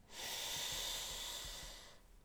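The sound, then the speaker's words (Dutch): A single slow inhale, a steady airy breath drawn in for about two seconds, faint and heard alone. “Adem in.”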